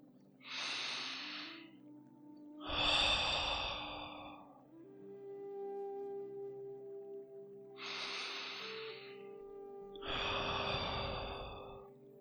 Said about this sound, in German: Atme langsam gemeinsam mit mir tief durch die Nase ein und durch den Mund wieder aus.